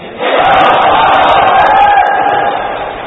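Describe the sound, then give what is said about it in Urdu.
Crowd at a religious gathering shouting the slogan Insha'Allah in unison: one loud, sustained collective cry that begins after a brief pause and holds for nearly three seconds before easing slightly. “پکی نیت بنتی ہے تو ہاتھ اٹھا کر انشاءاللہ کا نعرہ لگا دیں.”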